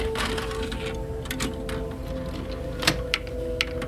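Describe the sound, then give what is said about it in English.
A tape being ejected from a player and a second tape loaded. A few sharp mechanical clicks and clunks sound over a steady low hum. “I eject the first tape, load up the second.”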